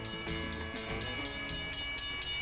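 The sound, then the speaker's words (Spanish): A train in motion gives a steady, rhythmic clatter at a regular beat over a continuous droning hum. The sound is alone and holds an even level throughout. “Esta escena que vamos a escuchar tiene lugar en un tren.”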